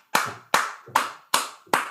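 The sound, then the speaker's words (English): A single person claps five times at a steady, slightly slow rhythm, each sharp clap loud and crisp, alone with no voices. “Let the applause die down a little bit.”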